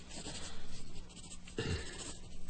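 A pen scratches across paper as someone writes out a document. The rasp is continuous and dry, with one heavier stroke partway through, over a faint steady hum.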